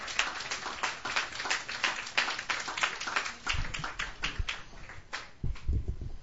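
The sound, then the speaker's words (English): Audience applause at an open mic night welcoming a performer to the stage: dense, scattered hand claps that keep going at a fairly even level, with a few heavier thumps toward the end. “So put your hands together, won't you, and welcome Tim Chesterton to our stage.”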